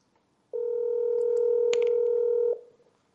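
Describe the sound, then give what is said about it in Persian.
A telephone tone sounds as a call is placed: one steady, loud, even tone lasting about two seconds, then it cuts off. No voices are heard. “من الان دارم به ایشون زنگ میزنم. ببین صداشم داره.”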